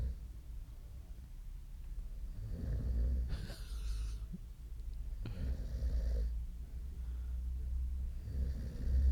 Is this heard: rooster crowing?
no